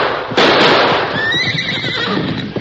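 A horse, a cayuse, whinnies loudly after a sudden onset. Its high, quavering cry carries over steady noisy background for about two seconds.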